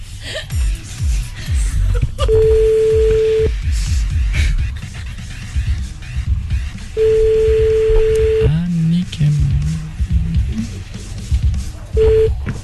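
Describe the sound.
Telephone tones from an outgoing call placed to a mother's number: long steady ringing tones in a few separate bursts with pauses between, heard under people talking.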